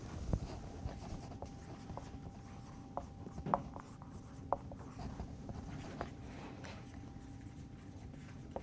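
A marker scratches across a board in short, intermittent strokes and taps, faint over a low steady hum, with no voices.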